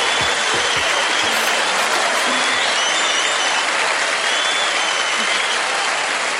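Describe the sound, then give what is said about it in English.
Applause from an audience greeting the start of a comedy show, a loud, unbroken roar of many hands clapping at a steady level from beginning to end. “Now, put your hands together for the Shiznit.”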